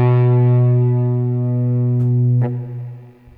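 A sustained, distorted electric guitar note rings through an effects pedal until the pedal is switched off mid-note, marked by a sharp click; the tone then thins and gradually drops in level, with no voices.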